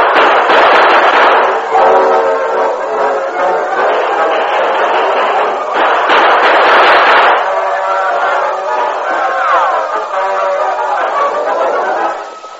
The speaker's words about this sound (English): Don't let them get past us. There's no other way out. Right around them, keep firing down at them.